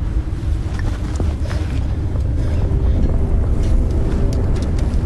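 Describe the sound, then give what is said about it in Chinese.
A Martian storm from the film The Martian roars as a loud, dense, steady rush of wind and low rumble with no break, gusting slightly throughout. “风暴将他们撤离的火箭吹歪”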